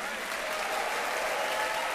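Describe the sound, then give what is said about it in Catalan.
Audience applause for a jazz band with piano, bass and drums in New York: a continuous, dense wash of many hands clapping that stays steady and loud from start to finish. “Benjamin compartint els aplaudiments amb els seus companys de banda.”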